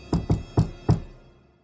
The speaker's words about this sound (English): So he knocked on the door and said,